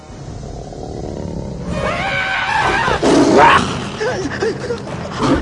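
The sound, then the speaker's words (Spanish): A lioness roars as she pounces on a fleeing warthog. The roar is loud and gravelly, with a strained, sweeping tone that peaks midway through and then breaks into rougher growls. “Una leona se lanza sobre él, que corre despavorido.”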